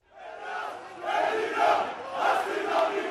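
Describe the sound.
Crowd of protesters in Athens rallying against government austerity budget cuts, a loud massed roar of shouting voices that swells in rhythmic surges like chanting, continuous throughout.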